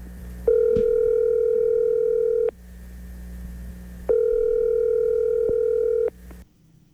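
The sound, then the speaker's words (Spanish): A telephone line tone sounds while a call is placed: two long, steady, fairly loud tones of about two seconds each, separated by a short pause, with no talk over them. “A ver, ¿está marcando?”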